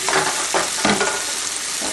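Meat kebabs sizzle as they fry in a lidded pan on medium-high heat, a steady loud crackle with a few brief louder bursts and no talking.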